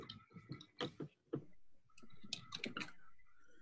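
Irregular bursts of clicking from fingers typing a Google search on a computer keyboard, quick clusters of taps separated by short pauses, fairly faint.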